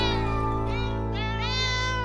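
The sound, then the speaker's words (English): A cat meowing in a song about cats at a dairy farm: a few drawn-out, wavering meows over a steady musical backing. “then somebody shouted, "meow."”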